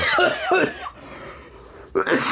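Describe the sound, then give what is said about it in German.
A man coughs after choking on something he swallowed, in harsh, loud, rasping bursts. The coughing fades briefly, then breaks out again, with voices talking around it. “Uiuiui, jetzt hat er sich verschluckt. Jetzt hat er sich verschluckt.”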